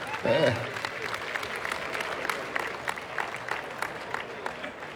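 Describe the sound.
Applause rises from an awards ceremony audience for the evening's first winner, a best music award. Dense, steady clapping continues throughout, with a brief voice at the very start.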